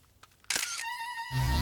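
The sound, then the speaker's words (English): A camera shutter press in a staged scene: a couple of faint clicks, then a sharp, noisy burst, followed by a steady high electronic tone and a low rumble. “She peers into the viewfinder and presses the shutter.”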